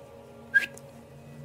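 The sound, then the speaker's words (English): A man whistles briefly: one short, bright high note followed by a fainter chirp, alone over a low steady hum. “See, he whistles a little bit.”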